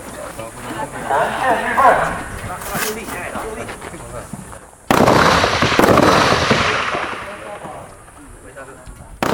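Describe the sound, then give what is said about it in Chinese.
Rifle fire at a shooting range during a trainee shooting camp in Hualien: a few sharp, loud reports with a rough, noisy tail, heard under steady narration. “学员们依照口令与射击线就位，完成射击准备。在一波波枪响及烟硝后，”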